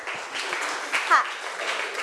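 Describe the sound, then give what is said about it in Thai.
Students in a class clap for two classmates, a steady wash of applause with voices talking through it and a couple of louder swells. “ขอบคุณค่ะปรบมือให้เพื่อนทั้งสองหน่อยค่ะ”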